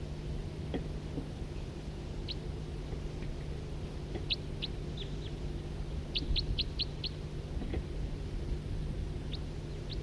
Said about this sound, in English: Couple birds here, one of two different, each of two different call types.